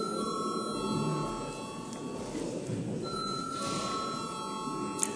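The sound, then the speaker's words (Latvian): Electric bell rung in a parliament chamber to call members to a vote, a steady sustained ringing tone that briefly drops out midway before resuming, over a low murmur of room noise. “Paldies, lūdzu zvanu.”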